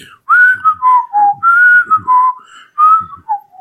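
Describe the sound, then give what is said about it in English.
A person whistling a pop song melody: clear, loud, pure tones in sustained phrases that step downward in pitch, separated by short pauses. “And since then, I've been walking around whistling”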